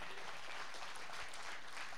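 Faint audience clapping, an even, continuous patter of many hands with no clear breaks.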